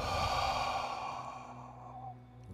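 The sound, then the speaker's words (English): A deep breath let out as a long, soft sigh during a guided breathing exercise, one slow exhale that fades over about two seconds. “to take a long breath in from the third eye. Hold. Release.”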